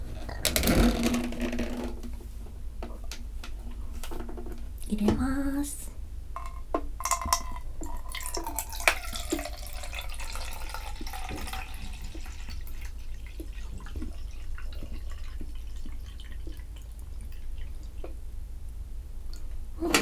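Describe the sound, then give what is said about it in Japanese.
Someone drinking 500 ml of water, faint wet gulps and squelchy swallowing sounds repeating at an uneven rhythm over a low background hiss. “なので次はお水を飲もうかな。お水も 500ml。”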